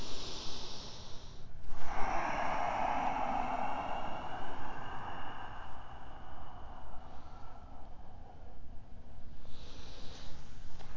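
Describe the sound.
Yoga breathing through a narrowed throat, heard as long, soft hissing breaths with brief pauses between them, steady and fairly quiet throughout.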